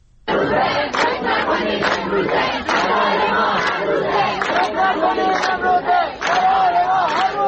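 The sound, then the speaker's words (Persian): University students chanting protest slogans at a campus protest rally in Kermanshah, Iran: a dense crowd roaring in unison, loud and sustained, with rhythmic surges of many voices throughout. “یکی از شعارهای دانشجویان در دانشگاه رازی کرمانشاه را می‌شنوید.”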